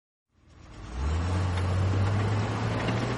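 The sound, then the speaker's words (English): A large diesel engine of a Komatsu D355A bulldozer rumbles into life after a moment of silence, building quickly to a loud, steady low drone that holds to the end. “Listen, Greg, I've had it with the wussy Nissan Versus. The Komatsu VD355A Bulldozer is who I really am as a commuter.”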